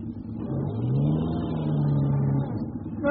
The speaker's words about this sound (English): No, it's no good. It's turning the snow to ice under the wheel.